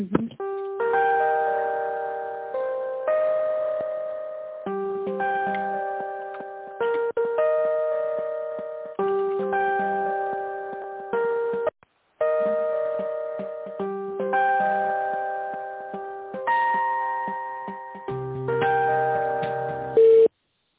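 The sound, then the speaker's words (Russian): Electronic telephone line tones play while a caller waits on hold for a call transfer: bright, chime-like pitched notes repeat in steady phrases for about twenty seconds, with a brief gap near the middle. “Вот, сейчас соединю вас с ней. Ожидайте, пожалуйста, на линии.”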